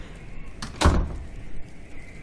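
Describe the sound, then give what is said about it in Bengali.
A door opening: a soft click followed by a heavier thunk, then a short scraping rustle, all fairly quiet against a low background hush. “একটু পরেই খুলে গেল দরজা।”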